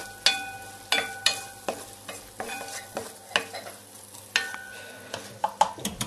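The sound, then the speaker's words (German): Onions frying in a pan, kept from burning until glassy, as a utensil scrapes and knocks against the metal in many sharp, ringing strokes over a faint, steady sizzle. “Aufpassen, dass die Zwiebeln nicht verbrennen natürlich. Ne? Die sollen glasig sein.”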